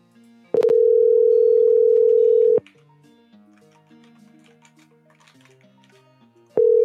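A telephone busy signal sounds on a call to a personal cell phone: a loud, steady tone lasting about two seconds, then a quiet gap with faint sounds, before the tone starts again.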